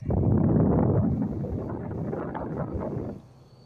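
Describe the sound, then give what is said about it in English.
Wind-like whooshing comes from a running car with the air conditioning on, a steady low rushing noise that holds evenly and then cuts away abruptly just before the end. “If you hear a noise like wind blowing, like this,”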